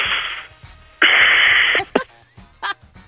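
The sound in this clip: A loud, exaggerated deep breath, a harsh rushing inhale following a softer earlier breath, then a few brief vocal sounds.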